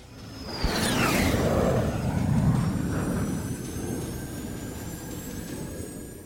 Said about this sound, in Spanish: Quédate con nosotros a visitar de nuevo el planeta marketing. Despegamos en 5, 4, 3, 2, 1.